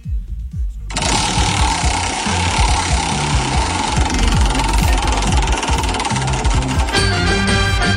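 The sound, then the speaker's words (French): A prize wheel is spun during a radio giveaway. After about a second, a loud, fast, continuous rattle of clicks starts and keeps going to the end, with no voices over it. “Je vais retourner la roue des cadeaux et on va voir ce que tu vas gagner.”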